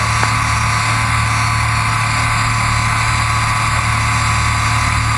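A vehicle engine idling while it is eased slowly across rough ground: a loud, steady, unbroken drone with a low hum that stays level throughout, and no voices.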